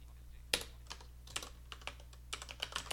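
Keys tap on a computer keyboard as a password is typed, a few separate faint clicks followed by a quicker, irregular run of soft keystrokes.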